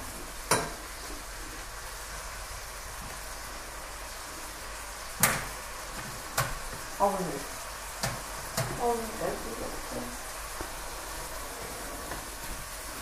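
Chicken frying in a pan gives a steady, faint sizzling hiss, broken by a few sharp knocks and clatters of cooking utensils.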